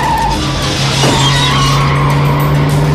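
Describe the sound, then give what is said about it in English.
A car rams the side of a van during a chase down a narrow street. Tires screech in a sustained squeal over engine noise, with a brief jolt near the middle. “The car repeatedly rams the side of the van.”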